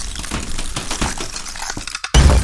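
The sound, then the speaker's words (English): Harsh breaking and smashing, a dense run of cracking, shattering crashes with a glassy edge, goes on without pause and ends in a sudden louder burst. No voices are heard. “Breaking. Smashing. Tearing.”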